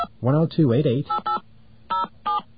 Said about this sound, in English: There's our dial tone. And we do that by dialing